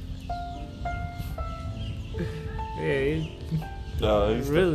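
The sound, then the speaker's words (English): A bird calls close to the microphone in a run of several clear, steady whistled notes, repeated at irregular intervals. People talk over the later part. “This bird is, like, right up on it. Joining the podcast. You got something to say? Are you quiet?”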